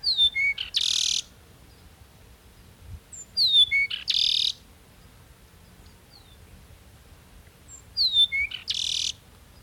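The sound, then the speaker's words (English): Song of a Peruvian meadowlark in Ecuador: three separate phrases of high, thin whistled notes, each ending in a buzzy burst, over a faint background hiss. “Now let's head way down south to Ecuador to listen to the song of Lystes bellicosus, the Peruvian meadowlark.”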